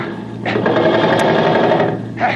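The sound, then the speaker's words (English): Rapid, continuous mechanical rattle of machine gun fire, a radio drama sound effect, running steadily and loud for about two seconds with no talk. “Here, cover him with that machine gun, Don. Yeah, okay. All right, set. Now let him have it, Don.”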